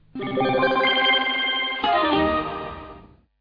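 A telephone ringtone for an incoming call: a bright electronic tone rich in overtones that shifts once partway through, holds for about three seconds on its own and then cuts off.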